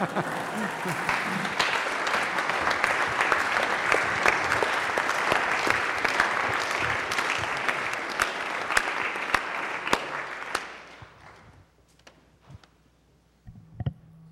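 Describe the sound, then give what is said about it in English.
Audience applause at the close of a lecture on finance and society: dense, even clapping holds strong for about ten seconds, then thins quickly to a few scattered claps and near quiet. “So I'll stop with that. And you may clap.”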